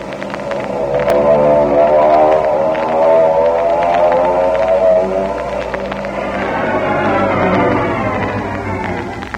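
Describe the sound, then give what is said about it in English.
A small airplane's engine drones loudly as it descends to land on a field near Rosarita. The buzzing hum is steady, with layered harmonics throughout. “We're over Rosarita, and I don't know what kind of a field this is going to be. Gee, I'm excited. Take it easy now. No crash landing. My nerves are on edge. So are mine. Hang on. We're going down.”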